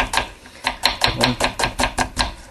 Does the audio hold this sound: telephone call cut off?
no